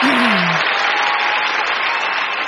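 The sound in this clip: Studio audience applause: dense, steady clapping that runs loud and unbroken from start to finish.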